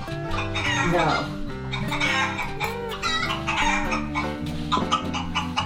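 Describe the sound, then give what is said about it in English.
Chick-like clucking and chirping from a toy of cute little baby yellow chicks whose wings also make noise. The sound is a dense, busy run of bird calls that continues at a steady, fairly loud level for the whole stretch. “it's cute little baby yellow chicks, so. And its wings make noise.”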